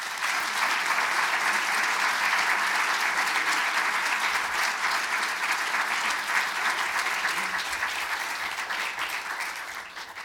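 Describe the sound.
Dense, steady applause from an audience welcoming speakers at an evening event in Canberra, continuous throughout and easing slightly near the end.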